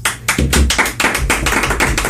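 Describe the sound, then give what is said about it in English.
Clapping from an audience at a gig announcing an upcoming Battle of the Bands: many loud, sharp claps in a quick, regular rhythm that runs nearly the whole way. “Clap.”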